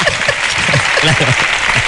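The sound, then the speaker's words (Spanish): Audience applause during a lively Spanish discussion about rice and paella in Alicante: a steady, loud rush of clapping with voices talking over it throughout. “Te han aplaudido porque el arroz es mejor que la paella, ¿no?”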